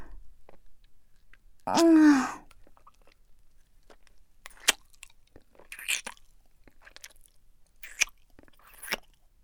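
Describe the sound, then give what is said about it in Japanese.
Crunchy Japanese rice crackers are bitten and chewed. A brief voiced murmur comes first, then a few sharp, scattered crunches follow at uneven intervals against near silence. “私のおすすめは、このせんべいかな。なんか、お店で食べるのよりも全然美味しいんだけど。”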